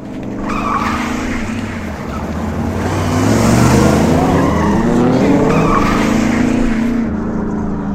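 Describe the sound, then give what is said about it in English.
A car speeds along a home road, its engine roaring loudly with a note that climbs and then holds as it drives by fast. Tire noise runs underneath, and no one speaks. “That guy drives way too fast on our road.”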